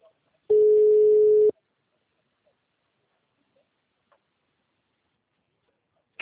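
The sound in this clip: A telephone busy tone after a dropped call sounds as a single loud, steady, mid-pitched beep lasting about a second, followed by near silence.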